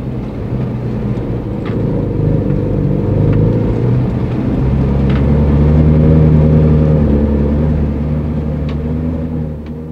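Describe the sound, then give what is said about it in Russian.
A car engine rumbles steadily as the vehicle rolls down a hill and along a narrow-gauge railway embankment. The deep, loud drone swells gently in the middle and eases off toward the end. “Машина спустилась с генической горки, поехала вдоль насыпи узкоколейки и затормозила.”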